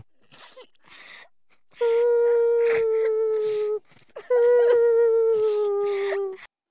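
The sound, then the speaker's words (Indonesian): A woman cries and wails, with a few short breathy sobs followed by two long, drawn-out moans that each sag slightly in pitch. “Cara kakak aku menangis, korang cuba bayangkan kalau cik pun sedang ketawa. Tetapi ini menangis.”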